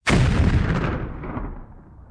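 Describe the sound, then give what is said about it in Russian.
A single loud explosion as a battery blows up after being shot, with an abrupt, powerful onset followed by a long rumbling decay that fades over about two seconds. “Стоило мне скрыться, как взрыв прозвучал.”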